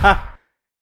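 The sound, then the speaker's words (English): A single deep exhaled breath, one of a series of slow breaths: a short, breathy sigh that starts loud and fades out within half a second, followed by silence. “I'm going to do 7 breaths right now.”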